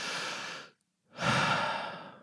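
A deep breath is heard as two long, airy breath sounds split by a short silent pause, and the second is louder and fuller than the first. There is no voice.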